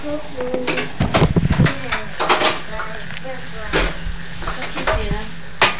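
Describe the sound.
Pots and pans clatter and cutlery clinks in a kitchen while french fries are cooked, with intermittent clanks and people talking throughout.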